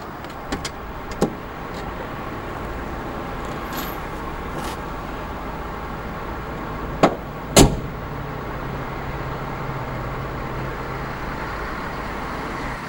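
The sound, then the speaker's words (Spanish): A woman gets into a car holding a large package: a steady low car hum with a few light knocks early on, then two louder, sharp clunks near the end. “La madre sube al coche de su hija con un gran paquete en la mano.”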